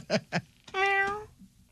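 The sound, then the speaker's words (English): A kitten meows once, a clear, high, drawn-out cry lasting about half a second, following two short soft sounds. “It is a cute little kitten. It is a cute cat.”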